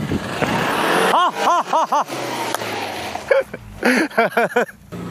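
An off-road car stuck in mud on a rain-soaked off-road course revs its engine in many short bursts, its pitch sweeping up and down with each push, in two clusters separated by a steadier rumble.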